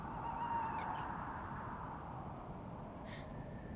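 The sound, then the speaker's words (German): An owl calls at night, giving a couple of faint, thin, wailing tones, one early and one near the end. The calls sit over a steady low background hiss. “Was klagt die Eule so, Mami?”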